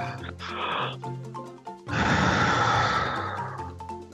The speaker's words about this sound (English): We're going to take a break here. Everybody breathe in.